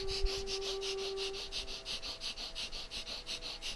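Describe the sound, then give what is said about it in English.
Rapid breath-of-fire breathing exercise: many quick, forceful breaths in an even, fast rhythm that stays steady throughout, with no talk. “here we go again, breath of fire”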